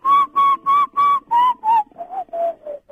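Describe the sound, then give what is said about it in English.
A person whistles breathily in a run of about ten short repeated notes, the first six strong and even, the later ones slightly lower in pitch, weaker and airier, with audible breath noise. “It's quite a breathy whistle. It's not a clean, clear whistle.”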